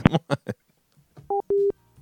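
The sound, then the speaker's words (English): A telephone rings on another line as two short electronic two-tone bursts, the second held noticeably longer than the first. “I'm getting ready to answer my other line that's ringing.”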